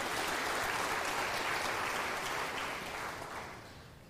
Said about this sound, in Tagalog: Sige, palakpakan natin ng Panginoon, mga kapatid.